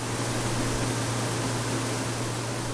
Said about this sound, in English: Sato's father is operating machines that dry and hull the rice, then separate out poor quality grains that are cracked or unripe.